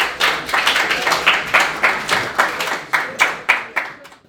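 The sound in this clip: An audience applauds to welcome a performer with rhythmic, evenly spaced claps, many sharp beats in a steady pulse that thin out and stop at the end.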